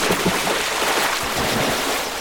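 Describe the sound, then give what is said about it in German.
Heavy splashing water as a giant falls in, a loud, rough, continuous rush and churn of water that holds steady throughout with no clear separate impacts. “Der Riese ist ins Wasser gefallen.”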